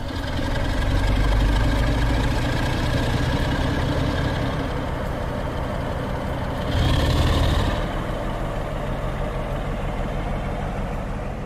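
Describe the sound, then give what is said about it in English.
Throaty roar of a diesel locomotive hauling a train south out of Craven Arms on reduced power after a traction motor fire. A steady, heavy low rumble runs throughout and swells briefly about two-thirds of the way through. “We've started on our journey again, moving out of Craven Arms and onwards south, with the throaty roar of the diesel locomotive from in front of us.”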